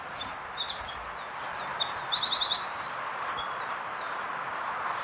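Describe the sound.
Wren song played from an internet recording: several bursts of rapid, very high, shrill trills and chirps, loud and clear over a steady background hiss.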